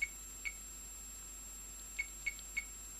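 Telephone keypad being dialed to call a TV shopping line: about six short, faint, high beeps spaced irregularly, with a long pause between the first pair and the later quick cluster.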